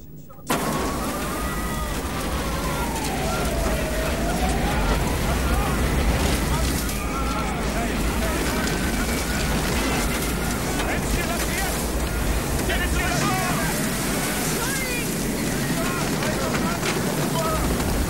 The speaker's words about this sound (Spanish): En unos minutos ya no habrá estrellas. El aire se está llenando de arena.